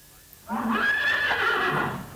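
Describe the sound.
A horse gives a single loud whinny after a brief quiet start, a wavering, high-pitched neigh lasting over a second before trailing off.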